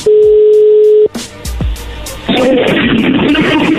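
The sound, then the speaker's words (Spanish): A telephone number is dialed for a call: a loud, steady dial tone holds for about a second, then cuts off, followed by a few short clicks and low line noise. “se está marcando, vamos Vamos a ver si contesta.”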